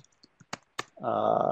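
Computer keyboard keys click a few times, faint and irregular, with short gaps between presses, before a steadier, louder tonal sound takes over.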